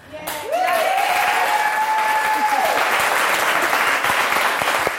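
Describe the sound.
Talk show audience applauding to welcome a guest onto the couch, a loud, dense, sustained round of clapping joined near the start by a held tone that fades out midway.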